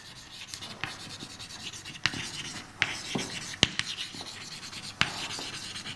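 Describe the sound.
Writing on a board: soft scratchy strokes punctuated by several sharp taps and clicks, over a faint steady hiss.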